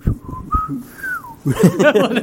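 A person whistles a few clear, steady notes, the last one gliding downward, and denser, louder sound follows right after.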